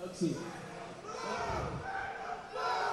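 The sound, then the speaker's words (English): A crowd cheers at a robot combat event after a bout in the ring. A rumble of shouting and cheering voices grows fuller toward the end, with a voice talking over it. “Got some cheers going on right now. Some cheers in the crowd.”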